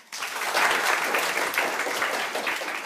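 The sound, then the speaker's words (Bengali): Audience applause at a school event, with many hands clapping that start abruptly and continue as a steady, even crackle throughout. “সবাইকে অসংখ্য ধন্যবাদ, তোমাদের সবার জন্য একটা হাততালি।”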